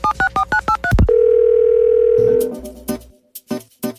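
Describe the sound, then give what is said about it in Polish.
A telephone number being dialled: six quick two-tone keypad beeps in a brisk, even rhythm, then a loud steady tone held for over a second, followed by a few clicks and soft thumps. “wykręca numery”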